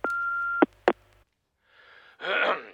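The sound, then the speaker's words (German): An answering machine beginning message playback gives a steady beep, then two sharp clicks, a short silence, and a swelling burst of rough, hiss-like noise toward the end. “Oh, der Anrufbeantworter blinkt. Ich muss mal hören, ob es was Dringendes ist.”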